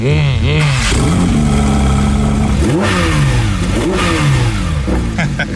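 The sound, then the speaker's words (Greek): A German car engine revs hard with a distinctly metallic, rasping character, its pitch sweeping up and back down a few times over a continuous loud drone. “Ο κινητήρας έχει ένα χαρακτηριστικό μεταλλικό ήχο που ανεβάζει την αδρεναλίνη χωρίς να χρειάζεται να πηγαίνεις με ηλικιώδη ταχύτητα.”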